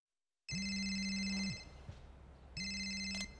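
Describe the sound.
A telephone rings for an incoming call, giving two bright electronic ring bursts separated by a brief pause. The rings are steady and clear, with no voices.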